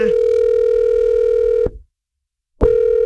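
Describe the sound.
A telephone ringback tone on a call placed to a radio listener: a loud, steady, buzzy tone that cuts off, leaves about a second of silence, then sounds again.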